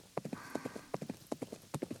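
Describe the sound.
A horse's hooves clip-clop as it is ridden across open wasteland in the rain, sounding as many quick, crisp hoofbeats in a steady repeating rhythm, quiet and with no voices.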